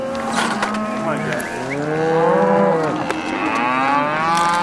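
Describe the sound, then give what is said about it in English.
Cattle mooing on a grass-fed ranch on the Idaho-Montana border as calves are weaned: loud, overlapping bellows from several animals, with deep, drawn-out moos following one another continuously. “rancher Glenn Elzinga is weaning his calves. Weaning isn't a pleasant time for calf or cowboy.”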